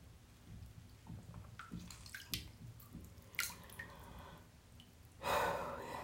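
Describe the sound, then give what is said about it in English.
Water dripping from a tap after it is turned off: several faint, irregular drips over a low background, then a brief, louder rush of water near the end. “This one, turn the water off, pours out a little bit, drips a tiny bit, off.”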